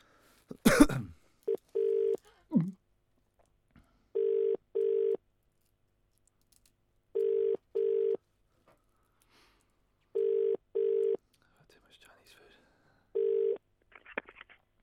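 Telephone ringback tone on an outgoing call: four evenly spaced pairs of short, mid-pitched buzzing rings, then the first ring of a fifth pair. A brief cough-like burst comes before the rings, and faint rustling follows them.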